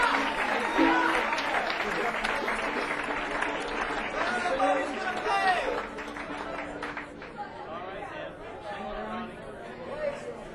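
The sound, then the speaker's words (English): Audience applause for a performer at a Christmas stage show: a dense, steady wash of clapping mixed with crowd chatter, easing somewhat after about six seconds. “Ronnie Bowman, give another big hand.”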